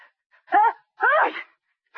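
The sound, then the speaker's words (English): A strongly voiced, theatrical sneeze in two parts: a short tonal intake, then a louder, drawn-out burst that trails off, with another voiced sound starting at the very end. “Bless you. What's the matter? You catching cold?”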